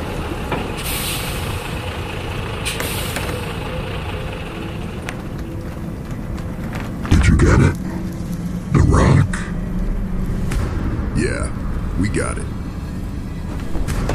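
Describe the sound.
A truck's steady engine rumble with two short, loud bursts of air-brake hiss midway, followed by a few higher hissing squeals.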